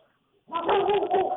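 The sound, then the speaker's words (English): A dog barking: after a brief near-silence, one loud, drawn-out harmonic cry rises and holds for almost a second, bark-like with a whining, wavering tone. “I'm going to apologize for my dog's barking.”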